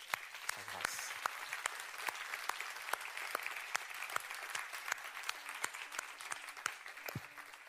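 Applause from a church audience, a sustained wash of many hands clapping with sharp individual claps standing out throughout.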